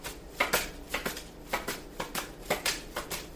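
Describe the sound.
Tarot cards are shuffled and drawn, giving many soft, quick riffling snaps in an uneven rhythm, faint and alone.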